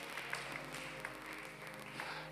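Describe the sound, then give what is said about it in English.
A church audience claps their hands for the Lord during a worship service. The applause is faint and soft, an even patter that continues steadily without clear breaks. “Somebody clap your hands for the Lord.”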